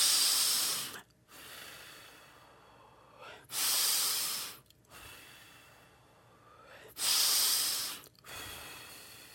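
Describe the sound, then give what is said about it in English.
Slow, deep human breaths, long airy hissing inhales alternating with softer exhales in a steady, unhurried rhythm, fairly loud and heard alone without any speech. “Take a few deep breaths.”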